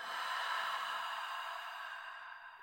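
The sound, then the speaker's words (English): A deep breath let go through an open mouth during a guided relaxation exercise, heard as one long, soft, airy rush that slowly fades away. “Take a deep breath in through your nose. Open the mouth, let everything go.”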